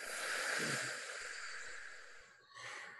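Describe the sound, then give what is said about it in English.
Slow belly breathing through the nose during a breathing exercise: a long, steady, airy breath fades out, then after a brief pause a second breath begins. Soft and breathy, with no talking. “Inhale into the belly through the nose. Exhale, nose or mouth.”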